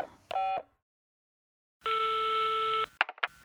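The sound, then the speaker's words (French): A mobile phone being dialed: a steady electronic tone lasting about a second, followed by a few short keypad beeps, with no talk. “Téléphoner et donner son numéro de téléphone.”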